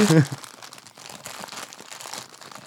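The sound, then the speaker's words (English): Crinkling of a jelly egg gummy candy wrapper being torn open, with a sharp crunchy burst at the start and softer rustling after, while people talk over it. “And let's eat. Let's eat jelly eggs.”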